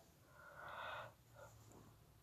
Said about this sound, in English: yawning. Excuse me for that. Oh my goodness. Excuse me. I was yawning.